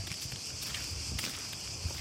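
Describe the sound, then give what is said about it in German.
Slow footsteps on a path climbing uphill on a hot day, a few soft, faint steps barely rising above a steady background hiss. “Es ist ein heißer Tag und der Weg führt bergauf. Obwohl wir langsam gehen”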